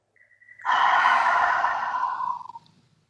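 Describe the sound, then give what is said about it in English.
A big deep breath let out as one long, sighing exhale that swells quickly, holds steady, then trails off, with no voices. “Big, deep breath.”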